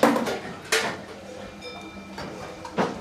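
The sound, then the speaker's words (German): Dishes clatter during washing up of milk dishes at an alpine cheese dairy. A few loud clanks of pots and plates, with quieter rattling and scraping between them. “wieder mal am Abwaschen. Wieder mal am Abwaschen.”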